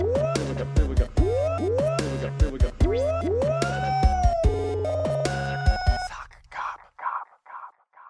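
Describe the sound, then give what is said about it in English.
A siren sound effect of several repeated sweeping tones, each swooping upward, over a steady low rhythmic backing for about six seconds, then a few fading, echoing pulses. “Let's play the siren for the first time callers. Here we go.”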